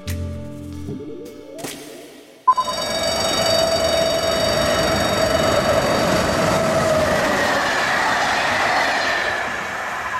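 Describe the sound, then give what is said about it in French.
The last Corail night train from Paris-Austerlitz to Nice passes through a station at night. A sudden loud onset gives way to a steady, heavy rumble of wheels and cars, with a high squealing tone running through it. “Le site railspotting.fr a planté sa caméra pour voir passer le tout dernier train corail reliant Paris-Austerlitz à Nice.”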